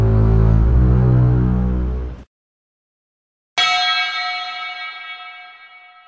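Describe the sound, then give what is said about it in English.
A sci-fi disruptor weapon fires: a dense, loud passage cuts off into silence, then a sharp blast opens into a bright, metallic ringing tone that slowly fades. “Just as the music reached a climax, the unmistakable sound of a disruptor weapon rang out.”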